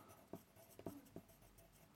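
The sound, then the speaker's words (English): Writing on a character sheet for a tabletop dungeon role-playing game: faint, scratchy pen strokes with several short, crisp accents spaced irregularly, heard alone without talk. “So I'm writing that on.”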